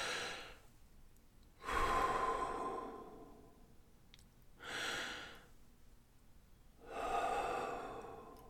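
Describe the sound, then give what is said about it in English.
A few slow, deep breaths drawn and released during a relaxation exercise, each an airy rush that swells and fades, separated by quiet pauses. “Take a moment to breathe and relax. You can do this at any time, and then listen to your own heart. As you breathe, 2 deep breaths.”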